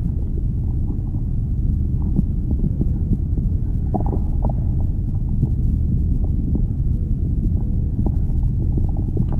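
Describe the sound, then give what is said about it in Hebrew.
Human stomach sounds: a continuous low, bubbly gurgling rumble, steady and fairly loud throughout, with scattered soft pops and no voices. “הצלילים של הקיבה שלנו.”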